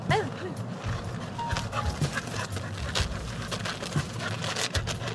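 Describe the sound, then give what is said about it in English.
A small red-brown retriever pants and makes small whimpering sounds at a park. The sound is soft and steady over quiet background noise. “The smartest dog at the park is a little red-brown foxy-looking retriever named Isla”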